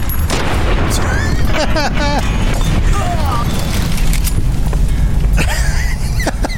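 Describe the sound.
Pistol gunshots ring out in a video game, with a few sharp cracks set in a dense, loud bed of continuous game sound and effects.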